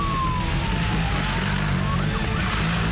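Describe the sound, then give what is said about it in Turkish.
Police motorcycles of the Yunus units maneuver through a slalom course in convoy-security training, making a steady, loud engine drone with whining tones that shift in pitch throughout. “Yunus timleri zorlu parkurlardan biri olan slalom parkurunda hem denge hem de manevra kabiliyetlerini geliştiriyor.”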